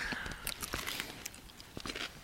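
Crisp biting and crunching of a fresh young pea pod, like a sugar pea: irregular sharp crunchy snaps and chewing, fairly faint.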